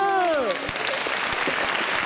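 Applause breaks out during a televised family cooking segment, opening with a short falling vocal exclamation, followed by a scattered patter of clapping hands that continues at moderate level.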